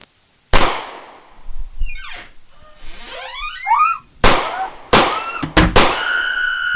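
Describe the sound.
Sharp gunshot bangs in a school-set drama scene: one loud crack, a stretch of fainter sweeping, chirping sounds, then several bangs in quick succession toward the end.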